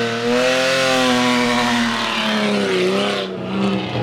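A BMW engine revs hard in a failed burnout with a slipping clutch. It makes a loud, steady droning roar whose pitch dips briefly and climbs again near the end.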